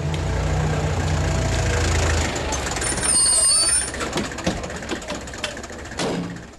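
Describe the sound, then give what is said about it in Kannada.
A hospital vehicle's engine idles and rumbles as it arrives at a house, with a steady low drone that gives way to lighter mechanical clatter and brief hisses. “ಅರೆ, ಯಾರೋ ನಮ್ಮನೆ ಕಡೆ ಬರ್ತಿದ್ದಾರೆ. ಓ, doctor ಸಾಹೇಬ್ರು. ಅದು ಆಸ್ಪತ್ರೆ ಗಾಡಿ.”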